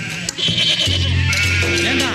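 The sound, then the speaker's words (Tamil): A herd of village goats straying across a fence bleats in loud, wavering, nasal calls that overlap and run almost without a break, with a few voices faintly among them. “டேய், திருப்பாச்சிக்காரங்க ஆடு தேசம் மாறி வருது.”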